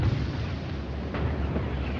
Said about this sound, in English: It's a bomb.